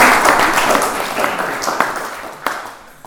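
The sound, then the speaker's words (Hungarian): Audience applause at a lecture, a dense round of clapping that gradually thins and fades, ending in a few scattered isolated claps. “Köszönjük szépen, tapsoljuk meg itt.”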